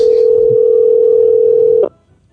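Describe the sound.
A telephone dial tone hums loud and steady, then cuts off abruptly with a short click, leaving near silence.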